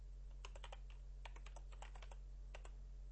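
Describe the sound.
Typing on a computer keyboard: quiet bursts of quick, light key clicks in irregular clusters over a low steady hum.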